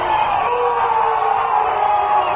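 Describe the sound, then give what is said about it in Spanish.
Baseball crowd yelling and whooping at the umpire after a pitch, a continuous mass of raised voices with no clear breaks. “Se mete el público con el umpire”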